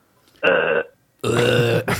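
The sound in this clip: Two loud, drawn-out belches with a short pause between them, the second longer and deeper than the first, followed by a brief extra sound.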